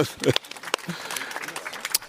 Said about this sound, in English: Yeah, nice. Applause.